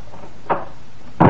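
A fire exit door as someone hurries out toward the emergency stairs. Two dull knocks against low background noise: a softer one first, then a louder, fuller thud.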